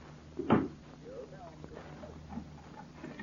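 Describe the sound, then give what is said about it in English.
A door being locked gives a single sharp click and thud early on, then only a low, steady background remains. “Here, Rollins. Lock the door.”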